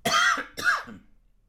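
A person clears their throat in two short, gruff voiced bursts, the second slightly weaker and trailing off into quiet, with no speech around them.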